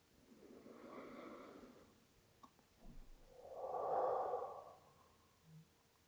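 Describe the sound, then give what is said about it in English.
Slow, deep breathing during a guided relaxation: two long, soft breaths separated by a quiet pause, the second fuller and more airy, with a faint short breath near the end. “Breathe. Arrive at yourself. Breathe again. And slowly let go.”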